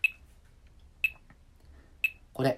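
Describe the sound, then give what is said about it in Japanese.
Metronome beeping at 60 BPM: three short, sharp, high-pitched beeps spaced evenly one second apart, clear and alone over a quiet background. “例えば、BPM60 っていうのを今実際鳴らしてみるんだけど、メトロノームでね。”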